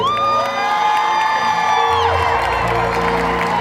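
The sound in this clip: An audience cheers, whoops and claps at a live concert after a song. The loud crowd noise runs on without a break, with high shouts rising over it.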